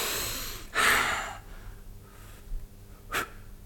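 Soft, breathy puffs as a person blows on a sleeping woman to wake her: a longer, broad gust of air comes first, then a shorter, sharper puff follows after a quiet stretch.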